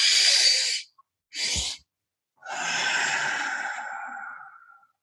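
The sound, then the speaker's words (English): A person breathes in twice in quick, short sniffs, then lets out one long, smooth exhale that hisses steadily before slowly fading away. “So a double inhale followed by a long exhale looks like this.”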